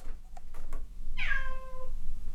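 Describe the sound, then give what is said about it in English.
A single cat meow, a clear drawn-out call that slides downward in pitch and rises alone over a low, steady background hum. “There's my cat Jocelyn”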